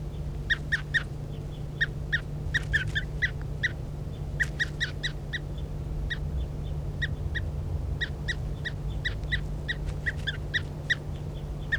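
A bird calling while being handled gives many short, sharp calls in irregular bursts. The calls sit over a low, steady hum.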